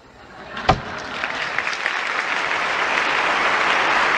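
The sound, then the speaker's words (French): Standing ovation in the United Nations General Assembly hall after Fidel Castro's 1979 speech: a sharp crack opens a broad wash of clapping that swells and builds steadily into loud, sustained applause. “Voilà, vous avez reconnu évidemment Fidel Castro qui en 1979 provoquait une standing ovation dans l'enceinte onusienne après un long plaidoyer pour les droits humains”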